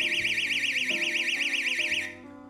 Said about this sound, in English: So I set the alarm off,